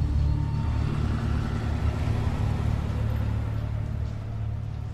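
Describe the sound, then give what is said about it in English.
A car engine rumbles as the car reverses out of a driveway and drives away down the road. The low, steady rumble holds throughout and eases slightly toward the end. “She slowly stands and peeks at the car. It reverses out of her driveway and down the road.”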